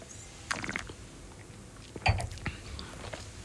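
Soft wet mouth sounds of Mencía red wine being tasted, a few faint slurps and swishes spread across the moment, with quiet gaps between them.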